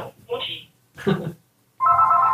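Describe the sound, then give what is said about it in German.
A telephone rings for an incoming call. After a few seconds of voices, a steady electronic ringtone starts and holds loudly to the end. “Anruf von Mutti.”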